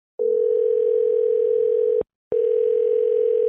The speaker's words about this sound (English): Folks, we got some. It's an unstable ringing.